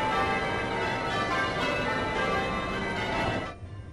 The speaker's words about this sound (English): Oh yeah, you can definitely hear church bells going for sure.